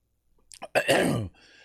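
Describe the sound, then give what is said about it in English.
A throat clearing to dislodge something stuck in the throat: a few small catches lead into one harsh, rasping voiced clear about half a second long, with no talk around it. “Sorry, that's not COVID, I'm hoping. That's just, I got a little something stuck in my throat.”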